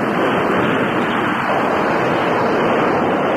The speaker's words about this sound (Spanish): ¡Uy! Aquí sopla otra vez.